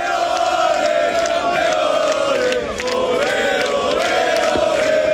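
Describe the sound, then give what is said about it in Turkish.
Barcelona football fans celebrate a league title in the streets, a loud, continuous mass of chanting and shouting voices that dips briefly midway before surging back. “Ligde üst üste ikinci şampiyonluğu yaşayan Barcelona taraftarları sokaklara döküldü.”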